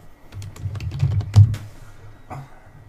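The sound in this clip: Typing on a computer keyboard produces a short, irregular burst of several clicking keystrokes over a low hum, with one stroke louder than the rest.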